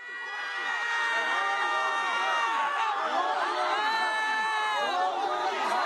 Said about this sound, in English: What you're hearing is the screams of protesters who were on campus Friday, who were very liberally pepper sprayed during a demonstration aligned with Occupy Wall Street.